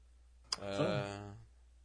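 A single sharp computer mouse click opens a document, followed right away by a short voiced tone that fades out. The click is quiet and stands alone against near silence.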